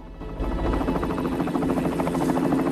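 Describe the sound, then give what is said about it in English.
A helicopter's rotor and engine drone loudly and continuously as police officers lead a man toward it, with a steady, rhythmic thrumming pulse throughout. “Police officers lead Terry towards a helicopter.”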